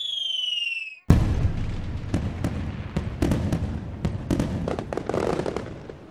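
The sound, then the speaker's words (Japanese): Fireworks explode in many irregular crackling pops and bangs of varying loudness, starting abruptly after a short whistling tone and continuing densely to the end. “花火のお話。”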